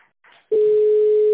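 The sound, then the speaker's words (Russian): A telephone busy-signal tone on a call to a company line: after brief faint noise, a single steady mid-pitched beep starts abruptly and holds loud and unbroken to the end, with no voices. “Номер занят.”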